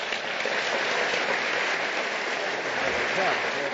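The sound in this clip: An audience at an evening meeting in Amsterdam applauds to welcome a speaker. The clapping is dense and steady, holding at an even, fairly loud level throughout with no break.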